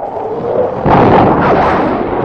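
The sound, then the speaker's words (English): A sonic boom from an F-92K jet diving through the sound barrier: a loud, deep burst that starts abruptly and rolls on as a broad rumble over a steady low roar. “There's the boom. Yeah. Jordan's gone through the sound barrier. He must be diving to do that. The F-92K's not fast enough to crack the barrier at level flight.”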